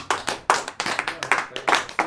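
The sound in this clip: People applaud, clapping their hands in a brisk, uneven stream of sharp, crisp claps that continues throughout.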